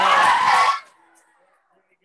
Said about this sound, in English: They're just screaming because, I don't know, they're just happy and they have a lot of energy.